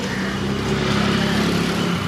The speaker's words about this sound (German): Eine Seitenstraße in Delhis Innenstadt.